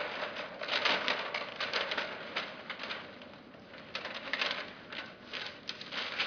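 A marker scratches across flip chart paper in quick, uneven strokes, a busy run of many short rasping bursts, moderately quiet, with no talk.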